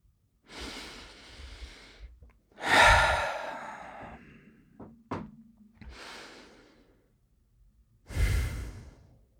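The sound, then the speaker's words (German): Deep, slow breathing in and out during a guided relaxation exercise, with loud airy inhales and sighing exhales in a few long cycles and a brief knock partway through. “atme ein, zweimal tief ein und aus.”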